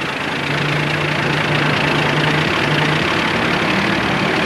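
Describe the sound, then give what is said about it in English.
Heavy diesel engine of a massive bulldozer crawling slowly up a dirt bank, a steady, low, rumbling drone that holds a constant pitch throughout, with no voices. “The dozer slowly moves back up the bank toward them.”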